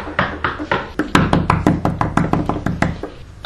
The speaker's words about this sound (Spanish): en un momento de la noche, un anciano tocó la puerta.